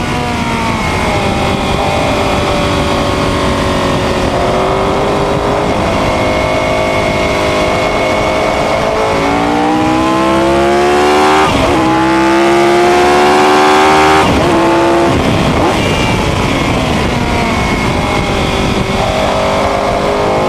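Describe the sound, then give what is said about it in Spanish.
A 1967 Grand Prix racing car lapping a circuit, its engine a loud, unbroken howl that climbs and drops in pitch as the driver works the throttle and shifts gears through the corners. “al bólido de Jim Clark y vamos a dar unas vueltas bien, bien enfadados”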